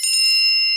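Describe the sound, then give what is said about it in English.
A bright bell ding serving as a five-minute warning tone for a timed debate, struck twice in quick succession and then ringing on with a clear, sustained high tone, alone. “You will get a warning tone at 5 minutes. It will sound something like this.”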